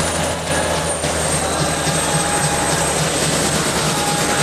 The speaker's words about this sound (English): at the spinning rotor blades against the sky thick with grey clouds